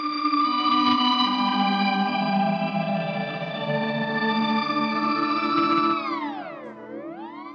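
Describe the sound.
Electric guitar run through effects pedals with reverb: a thick, chorused, slightly distorted drone holds steady for about six seconds, then its pitch swoops down and back up.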